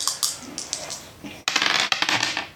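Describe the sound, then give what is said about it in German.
Two dice, one light and one dark, are rolled to draw prize winners in a tabletop gaming session. Many sharp clicks and rattles run on, with a louder burst of clatter midway. “Das heißt, du würfelst jetzt, wer was gewinnt.”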